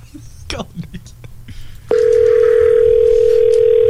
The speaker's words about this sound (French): ça sonne, arrête, arrête de composer.